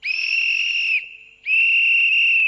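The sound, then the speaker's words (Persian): A final whistle blown in two long, steady, high-pitched blasts, each about a second long, with a short quieter gap between them. “این سوت پایانی هم بزن که ما بریم.”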